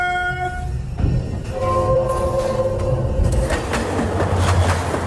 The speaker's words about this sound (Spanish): ¡Viajeros al tren!